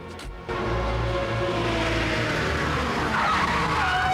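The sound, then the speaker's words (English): Tires screech as a car skids to a halt outside a bar: after a brief quieter lead-in, a loud, sustained squeal rises over a low engine rumble and carries on to the end. “Easy screeches to a halt outside Joppy's bar and staggers out of his car.”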